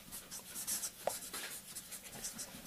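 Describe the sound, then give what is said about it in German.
Someone writes on a board, making a run of faint, scratchy strokes. The strokes come in many quick, uneven bursts that run on steadily at low volume. “ich schreibe das mal hier oben nochmal hin”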